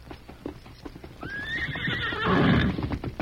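Ridden horses: hooves clop in an uneven rhythm, then a horse gives a loud rising-and-falling whinny while the hoofbeats grow heavier and louder.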